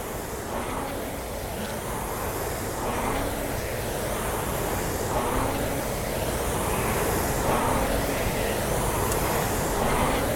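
Steady whooshing of a RowErg rowing machine flywheel during light warm-up strokes, a continuous airy rush that swells gently with each stroke in an even rhythm.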